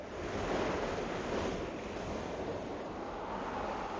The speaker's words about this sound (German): Jetzt kommt das Wasser wieder näher. Ich muss hochkommen, dieser Wind drückt so.